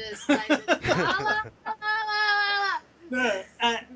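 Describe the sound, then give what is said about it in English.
A human voice imitates a cow mooing in several loud, wavering, drawn-out calls, with one long sustained note in the middle and shorter bursts before and after. “I just think it's really fun making cow noises at the moment.”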